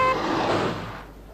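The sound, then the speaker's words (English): A car in the street gives a broad, rushing road noise that is loud at first, then fades out after about a second. “Uh-oh, this looks dangerous. Will they see that car?”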